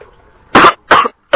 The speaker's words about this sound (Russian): Кашляешь ты.